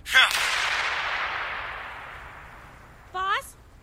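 A bomb explosion effect in an audio drama: a sudden loud blast that spreads into a long roaring, hissing decay lasting several seconds, followed by a short high tonal burst near the end.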